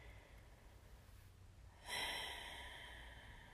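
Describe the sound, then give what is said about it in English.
A single deep breath by a person during a guided breathing exercise, soft and airy, starting about halfway through and drawn out steadily to the end after quiet silence. “So I'll just kind of take a few breaths here and let you do the same.”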